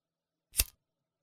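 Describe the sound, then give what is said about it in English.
A single lighter flick sounds alone against silence, one sharp, bright snap with a quick rattling tail that dies away within a fraction of a second. “The lighter noise. That's it. That's all you get. It's the lighter noise.”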